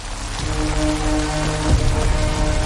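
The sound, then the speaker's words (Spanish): Rain falls at night on a city street, a steady, even hiss and patter that holds at a constant level throughout, with soft low tonal hum underneath. “Arthur camina cabizbajo bajo la lluvia”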